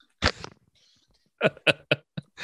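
A man coughs: one rough burst, a short pause, then a quick series of several sharp, fairly faint coughs.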